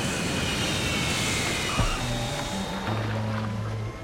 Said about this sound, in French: Mesdames, messieurs, nous allons atterrir dans quelques minutes.